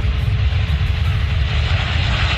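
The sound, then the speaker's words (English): A cargo plane scraping and skidding along the runway as it lands at the Northern Kentucky Cincinnati airport, its rear striking the ground. A loud, steady roar of rumble and hiss runs unbroken throughout. “the FAA now investigating what caused a cargo plane to scrape the runway at the Northern Kentucky Cincinnati Airport. Watch this.”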